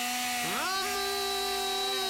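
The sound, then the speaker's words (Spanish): A 52 cc chainsaw engine revs up, its whine climbing in pitch and then holding a steady, high buzzing drone. “Motosierra Shimura, 52 centímetros cúbicos. Precio de contado bomba, 179.000 pesos. La estamos escuchando. Escuchá. Acelerá.”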